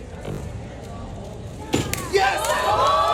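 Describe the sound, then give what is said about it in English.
A Rubik's Cube being speed-solved in 3.13 seconds ends in a couple of sharp clunks over a steady murmur of background voices. The voices then swell into louder, cheering crowd noise. “That's the sound of a 21-year-old dude solving a Rubik's Cube in 3.13 seconds.”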